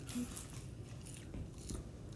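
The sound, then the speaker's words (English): Someone chews crunchy wasabi-flavoured seaweed snacks, making steady, dense crackling and crunching throughout, with no pause. “I gotta eat this wasabi seaweed to get rid of that taste.”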